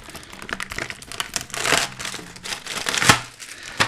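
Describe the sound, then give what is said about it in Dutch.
Plastic film being peeled off a supermarket plastic tray of oyster mushrooms, giving many irregular sharp crackles and crinkling rustles that come in uneven bursts and peak louder near the end. “En daar zo, plastic eraf.”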